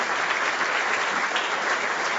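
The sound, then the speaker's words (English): An audience at a marketing and sales technology event applauds its sponsors. Dense, steady clapping fills the whole clip at an even level. “And by the way, give all of our sponsors a big hand clap.”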